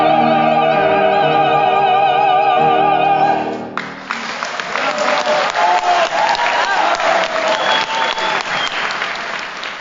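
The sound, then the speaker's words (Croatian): A joint performance of Zajc's aria U boj at a Croatian opera evening in Sydney ends with sustained orchestral and vocal notes. A loud audience ovation follows, with dense clapping from many hands filling the remaining several seconds. “Vrhunac večeri, kako se moglo i očekivati, bila je zajednička izvedba Zajčeve arije u boju boj, koju je publika ispratila ovacijama.”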